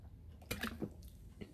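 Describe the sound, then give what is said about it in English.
Faint wet gulps and sips as someone drinks Coca-Cola: a few brief, soft swallowing and liquid sounds stand out from a quiet background. “I'm drinking Coca Cola. No, it's not sponsored. It's destroying my insides as we speak.”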